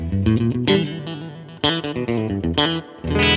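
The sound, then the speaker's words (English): Stratocaster electric guitar played straight into the amp with no pedal, giving a clean, bright tone. A few picked notes and chords ring out in short phrases, with sharp attacks and brief decays between them. “And so here's straight in with the Strat.”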